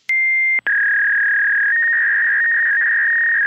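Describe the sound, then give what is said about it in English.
An electronic tone effect stands in for a judge's gavel: a short, loud pure beep, a brief click and gap, then a long, steady tone at a slightly lower pitch, alone with no voices. “This is the sound of a gavel in quotation marks.”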